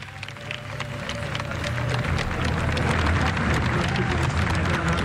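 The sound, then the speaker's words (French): UNESCO workers applaud the pope, their clapping a crackling, densely layered wash that swells during the first couple of seconds and then holds loud and steady. “en train d'applaudir, ils sont contents, ils disent « Vive le pape !»”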